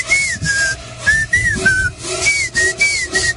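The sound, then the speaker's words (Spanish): Friends whistling at the front door of a home give many short, high whistles in a repeating pattern, each bending up or down in pitch, over a noisy background. “que vengan tus amigos y paran silbando, se paran en la puerta y comienzan.”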